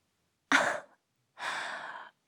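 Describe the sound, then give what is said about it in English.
Two breaths are blown out onto someone's face: a short, sharp puff, then after a pause a longer, steady exhale. Both are breathy and fairly loud, with no talk. “Oh my god, why did you do that? Why did you breathe all over my face?”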